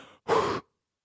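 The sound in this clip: A voice imitates a dying man's last breath leaving him: one short, forceful, breathy exhale that stops abruptly, followed by silence.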